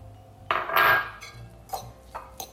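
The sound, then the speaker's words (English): A spoon scrapes and clinks against a bowl as a teaspoon of lemon juice is stirred into chopped celery: one longer scraping stir, then a few lighter taps, quiet and without talk. “give it another mix to make sure it's evenly distributed.”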